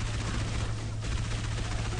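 Rapid, continuous gunfire from a video game played on Legendary difficulty with friendly fire on, dense loud shots packed through the two seconds with hardly a break.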